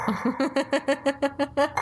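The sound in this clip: A voice imitates a breathing apparatus with a quick, even run of voiced, buzzing puffs that pulse in a steady mechanical rhythm.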